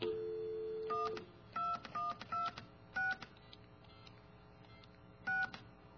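Touch-tone dialing on a telephone: a steady dial tone cuts off into a run of short keypad beeps at uneven spacing, with a longer pause before the final tone.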